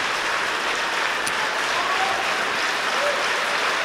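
The audience in Symfonisk Sal applauds the Aarhus Symphony Orchestra as the players stand at the end of a concert. The clapping is sustained, dense and uniform.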